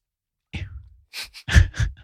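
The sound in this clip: A Pomeranian pants in quick, irregular breathy puffs and snuffles while licking a man's face in the morning. The puffs come in a few short bursts with gaps between them.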